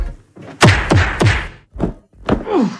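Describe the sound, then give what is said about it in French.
Punch sound effects: a quick volley of several heavy thwacks, each a sharp swooshing strike dropping into a low thud, ending with a final blow and a falling whoosh. “Alors ça, c'est le son des patates que je vais vous mettre dans un instant.”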